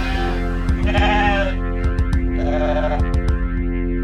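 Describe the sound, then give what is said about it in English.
Sheep bleating: a couple of wavering, nasal bleats rise over sustained steady background tones, with light clicking ticks scattered in between. “that sheep. It keeps bleating, love. It keeps bleating, it keeps bleating, love.”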